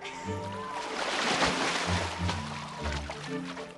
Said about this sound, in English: He paddles deeper in, then starts to swim.